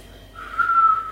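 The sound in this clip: A person whistles a brief, clear, high note that swells in loudness and holds steady to the end, with no other sound.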